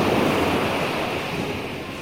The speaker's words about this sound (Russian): Ветер загудел вокруг Айкина, а потом поднялась огромная волна, которая на своем гребне понесла лодку к берегу.